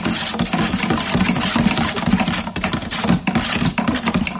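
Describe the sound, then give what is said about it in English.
A tombola drum holding envelopes being spun for a random draw, giving a loud, continuous rattling clatter of dense clicks and knocks that stays busy from start to end. “it's time once again to say, spin the tombola, please”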